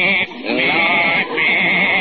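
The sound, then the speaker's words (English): A goat bleating in a courtroom gives loud, drawn-out, quavering bleats with a wavering, nasal tone. Two brief dips break the sound into a near-continuous run, and it is heard alone. “No, sir, I got my goat here”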